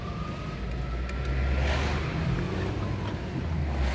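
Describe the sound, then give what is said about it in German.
Car ride behind a convoy of police cars and ten buses, heard as a steady, dense road rumble and hiss with no clear breaks. “Hier ein bisschen Atmo von der Autofahrt.”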